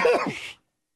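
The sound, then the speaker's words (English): A single loud sneeze, apparently voiced by a person, a breathy half-second burst with a falling vocal tone that stops abruptly into silence. “threw his head backwards and then forwards quickly, and let out a god-awful sneeze.”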